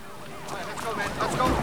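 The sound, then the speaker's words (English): Police squad car sirens as a trail of cars and vans rush up to a cathedral, warbling wails that rise and fall and grow louder toward the end. “Outside on the ground, a trail of squad cars and vans rush up to the building with the roof lights flashing.”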